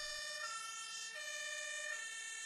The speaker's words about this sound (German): Charité Berlin-Steglitz, Notaufnahme. Ein Mann wird mit Blaulicht ins Krankenhaus gebracht.